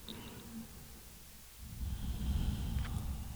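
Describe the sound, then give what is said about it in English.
A slow, deep breath is drawn in, faint and low. It is quiet at first, then swells into a steadier rush of air over the second half. “Please come into this present moment, this now, this instant. And just taking a deep breath.”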